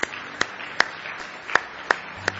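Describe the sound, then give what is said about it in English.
A church audience claps hands in praise during a morning service: six sharp, separate claps spaced irregularly and heard faintly against a quiet background. “Give him one more hand clap of praise if you love him this morning.”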